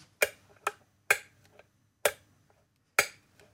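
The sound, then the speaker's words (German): Five crisp metallic ticks at uneven intervals, each ringing briefly, imitate a large grandfather clock, made with a brass-band march fork glued onto a small resonator. “Und ich habe auch noch eine Standuhr, eine ganz große Standuhr dabei. Die klingt dann so.”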